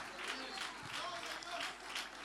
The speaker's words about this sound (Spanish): Con fuerza ese aplauso de alabanza al Señor.